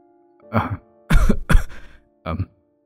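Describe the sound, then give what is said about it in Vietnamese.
Light, hacking coughs from a thin, pale, unwell man, in four short raspy bursts with pauses between them. The middle two come close together, and no one talks. “mà chốc chốc lại ho húng hắng”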